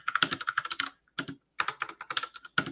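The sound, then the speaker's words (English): Rapid typing on a computer keyboard, with crisp clicking keystrokes in quick bursts separated by short pauses, heard alone with no talk. “I can't type.”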